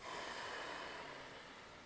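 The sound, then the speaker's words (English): A long, deep exhale during a yoga session, a steady airy breath that slowly fades, with no talking over it. “Lengthen out the in-breath. Huge breath out.”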